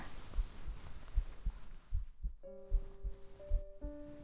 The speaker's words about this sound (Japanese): こうしてそばにいるとドキドキして、だから本当はキヌのことを、